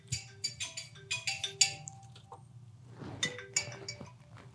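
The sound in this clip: A mobile phone ringtone goes off during a talk on the stock market: a quick run of bright melodic chime notes, a short pause, then another burst over a low steady hum.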